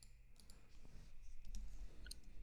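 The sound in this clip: Faint keyboard typing: a few scattered, irregular light clicks, quiet throughout.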